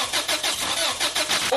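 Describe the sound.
A car engine failing to start: the starter cranks in quick, even, loud whirring pulses throughout, and the engine never catches.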